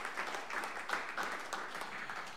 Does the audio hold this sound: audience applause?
yes